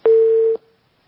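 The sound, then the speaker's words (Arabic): A single steady mid-pitched telephone tone lasting about half a second, bracketed by soft clicks, as a telephone call is cut off, then silence. “عبد الرحمن انقطع الاتصال”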